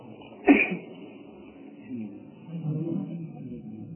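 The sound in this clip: A single sharp sneeze bursts out during an Islamic lecture, followed by low, muffled talk.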